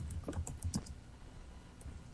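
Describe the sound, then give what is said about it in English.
Typing on a computer keyboard while entering a web search: a quick run of light, clicky keystrokes, busiest at the start and then thinning out to a few scattered taps. “Oscar movie. That's what I need to type.”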